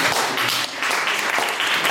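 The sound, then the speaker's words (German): Applause in a small, crowded Protestant pilgrim church as a colourful stained-glass window is unveiled: a dense patter of clapping that dips briefly near the middle, then carries on strongly to the end. “Dann Stille, plötzlich Beifall.”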